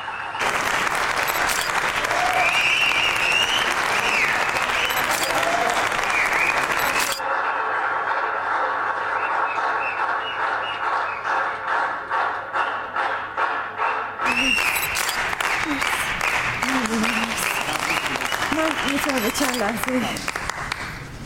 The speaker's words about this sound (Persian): خواهش میکنم تشویقشون کنید که تشریف بیارن روی صحنه.